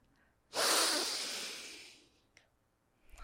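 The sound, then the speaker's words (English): Breathing during a guided breathing exercise. After a faint breath, one deep, forceful, breathy rush starts strongly, then softens and fades over about a second and a half, followed by a faint breath. “We're gonna breathe in, and on the exhale, we're gonna say I belong.”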